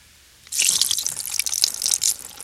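Broth poured onto a rock splashes in a steady, hissing stream that starts abruptly and continues to the end without talk.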